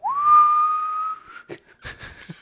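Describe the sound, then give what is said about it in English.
A person whistles to imitate a workplace whistle signal calling workers back after lunch: a single clear, loud tone that swoops up quickly and then holds steady for over a second before cutting off. “It was a whistle. And that was the alarm to go back in.”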